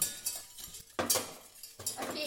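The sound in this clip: A spoon stirs sugar into a sauce of ketchup and vinegar, giving light clinks and scrapes against the dish in a few uneven bursts, with soft clatter between them.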